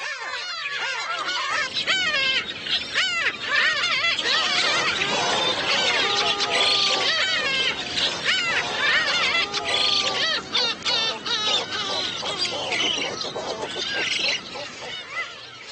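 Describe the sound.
Black-tailed gulls, including a chick, clash with black-faced spoonbills at a nest in the summer heat on Yeonpyeong Island; many overlapping harsh, honking and squawking calls form a dense, unbroken clamor throughout.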